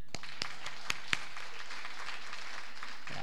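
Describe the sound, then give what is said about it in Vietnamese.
Faint applause from the seated audience at the close of a church camp: a few sharp, separate claps at first, then a soft, steady patter of many hands. “Các ông bà các anh chị còn ngồi đây là vỗ tay.”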